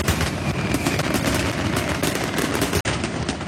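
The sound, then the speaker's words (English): Fireworks going off as a sound effect for a family fireworks festival, a dense, loud barrage of rapid crackling pops and bangs with a brief break near the end. “So listen closely for your cue to call. And when you hear those fireworks go off,”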